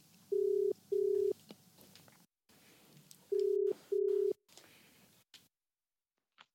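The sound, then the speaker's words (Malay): Telephone ringback tone on a long-distance call to Australia: two pairs of steady, mid-pitched ring bursts separated by a pause, over faint background hiss, ending in silence. “Saya membuat uh, panggilan jauh ke Australia.”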